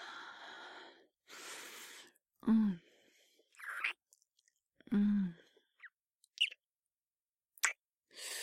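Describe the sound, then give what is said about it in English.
Soft, wet kissing smacks, a few brief lip pops scattered among breathy exhales, quiet sighs and murmured sounds, all faint and close to the microphone. “Give me another kiss.”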